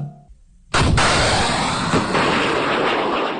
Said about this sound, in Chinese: 随着一声巨响，火光迸发，官兵们发射的反坦克导弹精准命中目标。